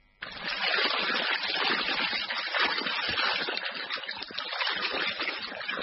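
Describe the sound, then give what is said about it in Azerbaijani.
Rushing river water fed by a mountain lake, heard as a dense, steady roar that flows without a break from start to finish. “Axarını Göygöldən götürən çayların suyu bumbuz bulaq suyu kimidir.”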